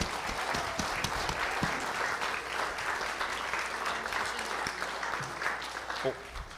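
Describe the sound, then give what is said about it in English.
Applause from a church audience in Milford, Iowa, welcoming a worship band: a steady, dense patter of many clapping hands, moderately quiet and sustained evenly throughout. “I just want you to give them a warm Milford, Iowa welcome as they come and lead us in worship this morning.”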